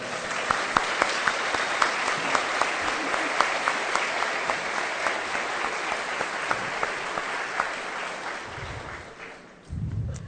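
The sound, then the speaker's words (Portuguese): Audience applause for two translators at a bilingual Bible study, with dense, sustained clapping from a crowd that holds steady for most of the stretch before tapering off near the end. “Vocês não concordam que os nossos dois tradutores merecem uma salva de palmas?”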